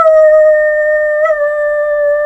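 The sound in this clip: A person imitates a wolf howl, holding one long, steady, fairly loud tone with a slight wobble partway through before it carries on level. No talk over it.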